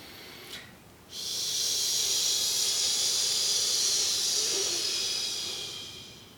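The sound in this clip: A long exhaled "heee" breath during a calming breathing exercise, a steady, loud, airy hiss lasting about five seconds before tapering off, preceded by a brief faint breath.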